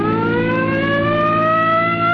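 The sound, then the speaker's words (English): A vehicle siren on a highway wails loud and continuous, its tone climbing slowly and steadily in pitch throughout, with no voices. “Come on, hit your siren.”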